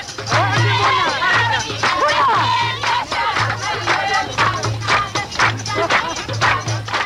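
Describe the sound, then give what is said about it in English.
A crowd at a welcoming celebration for a peace ship's stop in Sudan: many overlapping voices with high, wavering calls rising above the din, while a low, repeating throb pulses steadily underneath. “This welcoming celebration was recorded at the peace ship's stop in Sudan.”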